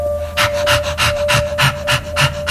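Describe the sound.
A dog pants in quick, steady rhythmic breaths. Each breath is a soft, airy burst repeating many times, with no talk over it.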